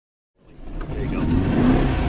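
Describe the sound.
A 1963 356B car engine revs up from silence, climbing quickly into a steady, loud, mid-pitched drone that holds to the end with no talking.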